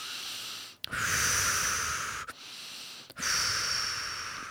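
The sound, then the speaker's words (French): Several deep breaths taken one after another, each a long, loud, airy rush of breath, with brief pauses between them and no talk. “avant de rouvrir les yeux, nous respirons plusieurs fois profondément”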